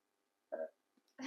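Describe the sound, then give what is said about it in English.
A single brief, low burp sounds on its own during a casual conversation. “excuse me, I had a burp.”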